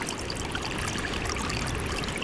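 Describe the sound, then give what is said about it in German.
Meltwater trickles and splashes at the Rhone Glacier in Valais, Switzerland. It makes a steady, unbroken rush of running water with no pauses and no voices. “Es plätschert am Rhone-Gletscher im Schweizer Kanton Wallis. Und es plätschert immer mehr, denn immer mehr Gletschereis verschwindet.”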